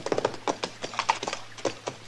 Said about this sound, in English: Hey, that horse of yours has got a loose shoe, ain't he